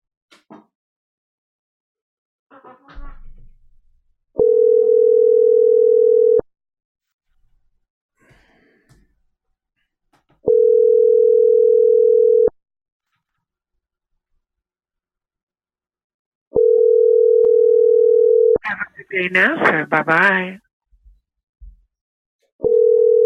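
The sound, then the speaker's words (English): Telephone ringing tone heard while calling a phone number: a steady mid-pitched tone in four bursts of about two seconds each, separated by roughly four-second gaps. Faint rustles and a brief breathy burst fall between the rings. “So I'm not sure if they're actual phone numbers or not, but we're going to call them.”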